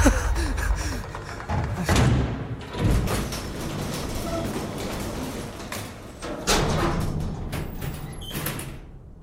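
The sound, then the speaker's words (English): Elevator moving in a video game: a mechanical rumble with a few heavy thumps and sliding, door-like clunks. “The code actually worked! Just took a second for the elevator!”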